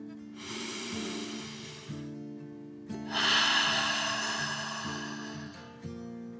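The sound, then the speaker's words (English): A deep, slow breath drawn in and let out, taken as a calming 'dragon breath' in a children's relaxation story. A soft airy inhale is followed by a longer, louder exhale over steady, gentle background music. “With one more deep dragon breath in and out.”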